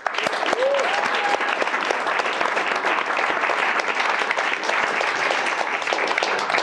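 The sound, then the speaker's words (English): An audience applauds to welcome Tim Ferriss, with dense, continuous clapping from a crowd that stays loud and even throughout. “So without further ado, let's give Tim a nice welcome.”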